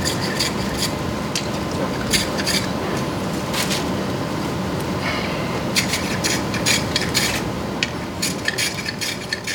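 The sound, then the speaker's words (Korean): Rasping, scraping strokes of a blade shaving bundi wood to make chopsticks. A steady rough rub runs throughout, with many short, bright scrapes repeating irregularly on top. “양쪽을 깎아서 중간을 자르게 됩니다. 양쪽을 깎게 되면은 이렇게 두 개가 이렇게 잘라.”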